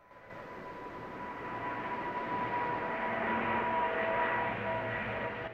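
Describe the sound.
An aircraft taking off from an airport runway: a broad engine roar that swells over the first couple of seconds, then holds loud and steady, with no voices.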